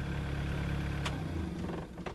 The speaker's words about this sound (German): Ein roter Trecker fährt mit Vollgas auf den ungepflasterten Hof. Der Fahrer reißt das Lenkrad herum, zieht einen engen Halbkreis. Der Trecker ruckelt, kommt vor einem Nebengebäude zum Stehen.